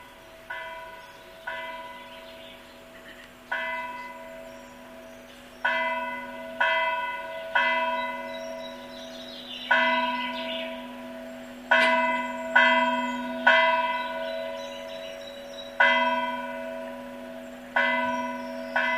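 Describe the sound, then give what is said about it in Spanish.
Church bells ringing the toque de angelito, the toll for a child's death: many loud clanging strokes in an uneven rhythmic pattern, each ringing out and fading before the next, with no voices. “El toque que vamos a escuchar se ejecutaba cuando moría un niño y se llama toque de angelito.”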